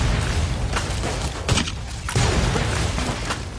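Grenade explosions in the video game Fallout: a couple of heavy booming bursts rising out of a dense, continuous roar of loud game noise.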